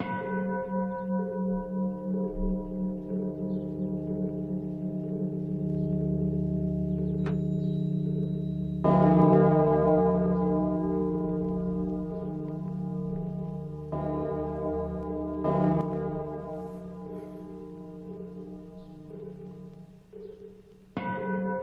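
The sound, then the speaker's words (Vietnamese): A Buddhist temple bell rings from a pagoda bell tower in a few deep, resonant strikes over a continuous humming drone. Each strike decays slowly, with no talk. “Tiếng chuông mõ ở trong chùa lâu lắm rồi lại một lần nữa vang lên.”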